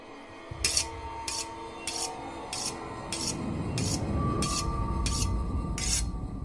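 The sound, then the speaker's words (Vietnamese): A knife is sharpened as an eerie story effect: a long, evenly paced series of harsh rasping strokes repeating about every half second, over a low droning tone that swells in the second half. “Một thoáng, tiếng mài dao ấy lại mơ hồ chuyển sang bên chính ở giữa gian nhà, chỗ đặt quan tài của bà cụ Ngạc.”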